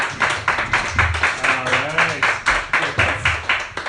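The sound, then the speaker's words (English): An audience claps in a steady rhythm for a comedian, with many evenly spaced loud claps running throughout and a voice calling out over them in the middle. “Put your hands together for Justin Auslander, everybody.”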